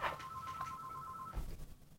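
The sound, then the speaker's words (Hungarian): A telephone rings once, faint under background hiss: a steady electronic tone holds for just over a second, then cuts off abruptly. “csak közben telefonunk van.”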